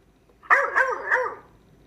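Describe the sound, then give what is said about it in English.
A dog barks three times in quick succession. The barks are loud, bright and slightly whiny, with no talk around them, and they fade after the last one. “He began to bark and bark.”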